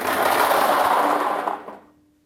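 Forty-nine lottery balls pour into the drawing machine at the start of a German Lotto draw, making a dense, continuous rattling clatter that lasts about a second and a half, then thins and dies away.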